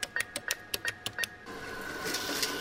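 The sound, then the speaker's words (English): An ATM dispensing cash: a quick run of about eight sharp mechanical clicks in a steady rhythm, then a soft continuous whirring rustle as the bills feed out. “Have you ever been with an adult who sticks a debit card into a machine that sounds like that, and then the machine spits out dollar bills? That's called an ATM machine”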